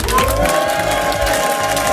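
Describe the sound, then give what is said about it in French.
A live audience in Saulon-la-Chapelle cheers and applauds at a festive show, a loud continuous roar of clapping mixed with shouts and excited voices that stays full for the whole stretch. “Toujours avec un public ici en folie. Est-ce que vous voulez l'entendre, ce public, pour finir?”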